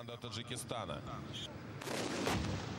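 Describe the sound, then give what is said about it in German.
Tank guns firing during a tank biathlon shooting event: a few heavy, booming gun blasts, louder toward the end, heard under ongoing talk. “jetzt beginnt der sogenannte Panzerbiathlon. Der besteht aus Fahren und Aussteigen. Ja, und dann noch aus Laden, Schießen und am besten Treffen.”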